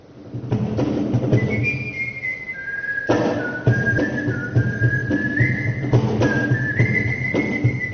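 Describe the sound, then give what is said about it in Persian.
Whistling by whistle players at a gathering in Japan: long, sustained melodic notes that glide between pitches, heard over a steady bed of background noise with no talk. “اولین گرد همایی نوازندگان سوت در ژاپن،”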